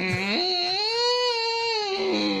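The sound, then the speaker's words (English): A woman screams while tobogganing down a hill in Madeira, one sustained high-pitched wail that jumps up early and then holds steady and loud for the whole stretch. “That was the sound of Karen coming down the hill.”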